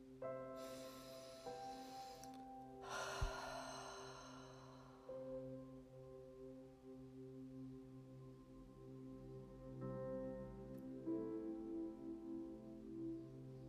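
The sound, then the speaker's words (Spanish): A deep breath drawn in and let out through the mouth during a guided breathing exercise: two long, soft, airy rushes of breath over a faint, steady musical drone. “Inhalamos profundo y exhalamos por la boca.”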